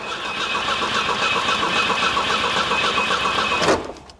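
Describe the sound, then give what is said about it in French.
An old car's engine cranks over and over without catching, a steady, loud, rhythmic churning that runs for nearly four seconds before cutting off abruptly. “On va tenter de démarrer. Point mort.”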